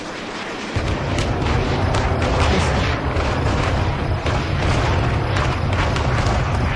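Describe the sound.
Recorded bomb explosions play as a dense, continuous roar with heavy low rumble. The sound stays loud and unbroken after a brief quieter start, with no separate blasts standing out.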